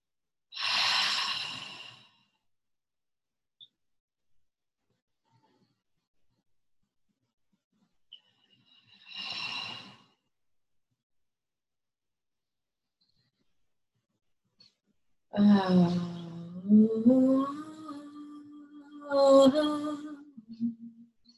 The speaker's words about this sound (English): We're going to take 3 deep breaths in the nose and out the mouth together.